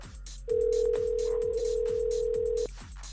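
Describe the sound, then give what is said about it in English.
A telephone tone while a number is redialed: one steady, mid-pitched electronic tone holds for about two seconds, then cuts off abruptly over faint background hiss. “Let me dial them again. You know, maybe they didn't really mean to hang up.”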